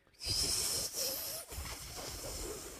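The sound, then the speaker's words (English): A breathy, hissing exhale pushed through tightly pursed lips in an attempted whistle that never forms a clear tone. The airy rush runs in a few long pushes with brief dips between them, and no one talks. “Make a tight hole with your lips. Fine, tight hole it is. Now what? Exhale. Push the air out.”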